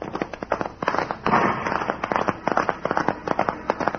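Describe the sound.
Gunshots fired as escaping convicts flee a posse on horseback, many sharp cracks in quick, irregular succession, some clustered tightly together.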